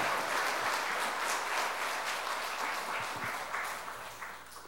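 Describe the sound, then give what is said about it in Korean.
Celebratory applause from a church audience at a Sunday school teachers' recognition ceremony, a dense patter of many hands that starts full and slowly fades toward the end, with no talking over it. “큰 축하의 박수 부탁드립니다”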